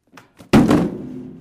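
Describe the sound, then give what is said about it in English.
A small box labeled diapers is set down on a table: a couple of faint light taps, then one solid, dull thump that decays quickly into quiet. “That's the sound of a small box of diapers getting set on a table.”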